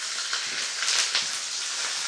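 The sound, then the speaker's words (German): Potato pancakes frying in plenty of hot oil give a dense, steady sizzle that stays loud and even throughout, a bright spitting hiss with no talking over it. “Ich kämpfe mit Kartoffelpuffern. Ja, boah, das spritzt wirklich.”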